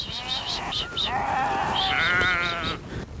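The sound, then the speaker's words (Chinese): Sheep bleating at a summer pasture at the foot of the Tianshan mountains: several loud, wavering, nasal bleats follow one another closely, some with a shaky vibrato, over a low steady background. “古力夏提收拾好店铺，又要赶到他们家位于天山脚下的夏牧场，把羊赶回羊圈。”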